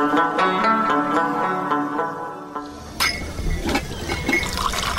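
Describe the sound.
Tea pouring into a glass, heard as a steady rushing, splashing stream of liquid that starts abruptly partway through and keeps going to the end.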